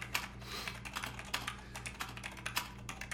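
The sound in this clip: Keystrokes on a computer keyboard as a statement is typed during a police interrogation: a rapid, irregular run of sharp clicks with no voices, over a steady low hum.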